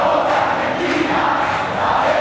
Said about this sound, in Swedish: Spansk glädje efter guldet. Viva España! Viva España! Let's go Spain! Argentinsk allsång.